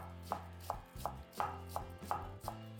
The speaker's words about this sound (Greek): πολύ καλά λεπτοκομμένη. Λευκό λάχανο, επίσης ψιλοκομμένο.